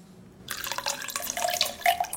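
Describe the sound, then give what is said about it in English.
Water poured into a glass, a continuous splashing, gurgling trickle that starts after a brief silence and runs for about two seconds, with bright bubbling tones rising out of it. “Pour me a glass of water.”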